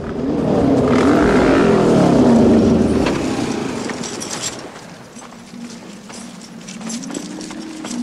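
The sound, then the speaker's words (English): Motorcycles near a railway bridge: loud, rumbling engine tones fill the first few seconds, then fade to a quieter steady hum, and one engine note rises briefly near the end. “Bikes approach a railway bridge, with their headlights glowing in the distance.”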